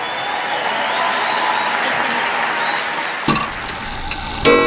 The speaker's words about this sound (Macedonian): аплауз.